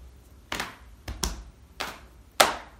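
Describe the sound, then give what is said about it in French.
Hands slap the knees and chest in a seated clapping rhythm: five sharp slaps, two of them close together, the last the loudest. “On frappe le genou. On frappe le buste. Avec le revers de la main, on balaye le genou et on revient.”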